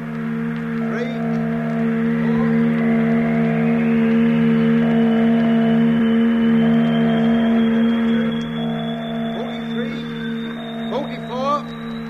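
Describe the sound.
A ship's engine flywheel starts and the motor runs: a steady, droning mechanical hum with layered tones, topped by a thin high whine that slowly climbs in pitch, with a few brief clicks near the end.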